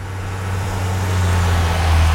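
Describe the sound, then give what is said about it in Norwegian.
Road traffic passes a spot in Buskerud, Norway: a steady low engine rumble with a sustained hum beneath a broad wash of tyre noise, growing slightly louder toward the end. “Ja, det går en del trafikk forbi der.”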